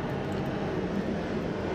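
An airplane flies over near an airport, producing a steady, dense low roar that holds at a constant level with no voices.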